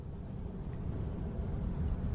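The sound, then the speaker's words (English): Car driving along a very straight road after leaving Morawa: a low, even road rumble and engine drone, constant throughout with no talk. “It's now about 2 p.m. and we're still on the road. We just left Morawa, where we had lunch by the side of the road. We're driving along a very straight road”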